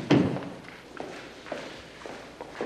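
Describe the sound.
Footsteps walking away, a series of soft, fairly evenly spaced steps; the first lands as a heavier thud and the rest are fainter, with no talk.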